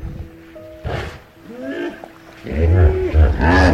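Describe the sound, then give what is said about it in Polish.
A hippopotamus calls with deep, rough grunting bellows, a quieter harmonic call in the middle giving way to louder, throaty roaring bursts toward the end. “No hipcio! A, hipopotam!”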